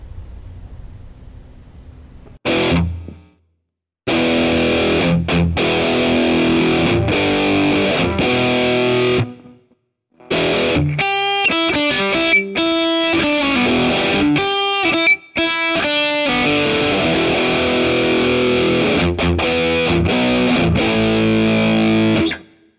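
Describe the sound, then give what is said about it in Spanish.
Distorted rhythm guitar through a Marshall JCM200 amp simulation and a 4x12 Greenback cabinet impulse response miked with a 421 dynamic mic, loud chugging riffs with tight palm-muted stabs and sustained chords, broken by short silent gaps. “JCM200 y un impulso de respuestas de una cabina 4x12 con greenbacks, en este caso microfoneada con un micrófono dinámico 421.”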